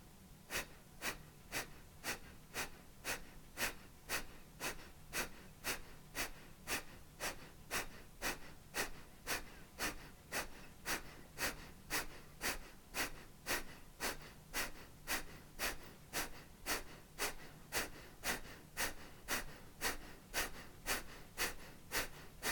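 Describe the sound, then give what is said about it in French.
Rhythmic breathing during a guided, speeded-up breathing exercise: many quick, evenly paced inhale-exhale cycles, each a soft airy rush through the lungs, repeating steadily and faintly with no talk. “Légèrement plus rapide, si c'est possible pour vous. Videz les poumons. Petite inspire.”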